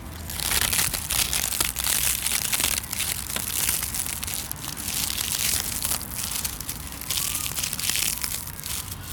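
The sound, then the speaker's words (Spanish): Dry leaves crunching and crackling continuously for about nine seconds: a dense, steady, crisp rustle full of small snaps, with no voices. “Lo primero que vamos a captar es este sonido, el de las hojas.”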